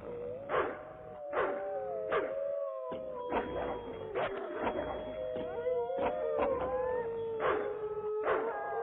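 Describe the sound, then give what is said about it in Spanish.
A pack of wolves howls in long overlapping wails, several voices gliding up and down in pitch over one another, with sharper yelps breaking in repeatedly throughout. “los aullidos de los lobos duraron poco tiempo.”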